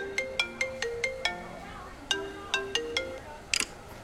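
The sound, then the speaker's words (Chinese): A phone rings with an incoming call. A melodic phrase of quick, bright electronic notes plays, then repeats after a short pause, followed by a brief harsh burst. “快下班的时候，洛毅打了电话过来。”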